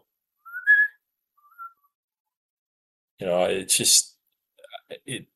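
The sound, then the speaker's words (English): A person whistles high, imitating a pan flute melody with two short bright notes, the second fainter. After a pause, a person talks briefly. “you've got, the pan flute. I whistle that high as I can,”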